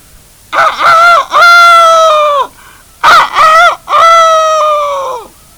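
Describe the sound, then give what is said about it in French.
Young farmyard rooster crowing: two loud, drawn-out cock-a-doodle-doo calls, each opening with short choppy notes and ending in a long, held cry that trails off. “elle entend le jeune coq de la basse-cour lancer son cocorico”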